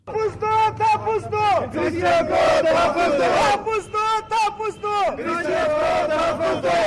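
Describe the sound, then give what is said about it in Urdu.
Christian protesters at a demonstration in Quetta, Balochistan, chant slogans against poor security arrangements. Many voices shout together in loud, rhythmic bursts, with short pauses between the repeated calls. “صوبہ بلوچستان کے دارالحکومت کوئٹہ میں مسیحی برادری سے تعلق رکھنے والے افراد نے سیکیورٹی کے مناسب انتظامات نہ ہونے کے خلاف احتجاجی مظاہرہ کیا اور اپنے حق میں نعرے بلند کیے۔”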